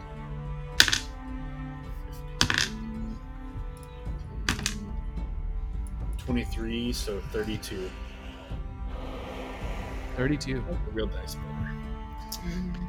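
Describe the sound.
Real dice clatter on a table during a tabletop fantasy role-playing session: a few sharp, bright clicks and knocks stand out while people talk throughout.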